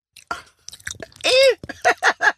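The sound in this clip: Close, wet chewing of food dipped in vanilla sauce, with irregular smacking and plopping mouth noises and a brief voiced sound in the middle.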